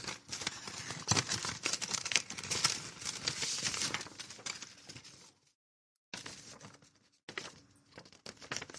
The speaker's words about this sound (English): This letter opener. I think I might have cut the letter in here.